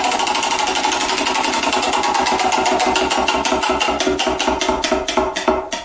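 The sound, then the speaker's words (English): A prize wheel spins with a fast, steady run of ticking clicks. Near the end the clicks spread out and slow as the wheel winds down. “We spin the Wheel of Destiny.”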